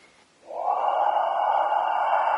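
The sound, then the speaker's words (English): A long, airy out-breath during a meditation exercise of counting exhalations. It begins after a brief pause and holds as a steady, breathy rush until the end. “at some point the teacher will say, okay, what I want you to do now is just count the out-breaths. So that would be,”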